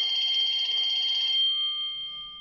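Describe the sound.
A telephone rings with a warbling electronic tone that holds steady for about one and a half seconds, then thins to a fainter lingering tone. No one speaks.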